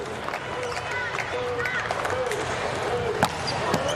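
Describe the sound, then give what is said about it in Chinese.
A volleyball serve during a match involving the Poland team: a single sharp ball strike near the end cuts through steady crowd noise, with people talking throughout. “继续来看杨秋克的发球，现在波兰队压力比较大”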